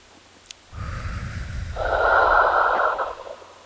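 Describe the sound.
A long, deep breath, heard as steady breathy rushing air that swells louder partway through before tapering off. It stands alone with no talking.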